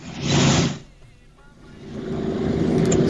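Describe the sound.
Motorcycle engine noise as a broad, throaty roar. It swells loud, dips away briefly, then builds again steadily and holds to the end.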